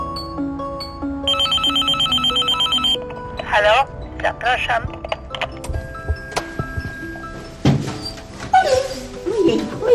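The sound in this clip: A dog whimpers and whines in several short, high, wavering bursts. Earlier, a bright electronic phone ringtone chimes in quick repeated pulses for a couple of seconds.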